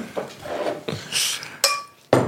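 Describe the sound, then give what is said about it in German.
Glassware clinks and knocks as a small amount of drink is poured into large glasses. Several bright, sharp taps and rattles come at irregular moments, with no speech. “Immer so schwierig, in so riesige Gläser so wenig einzuschenken.”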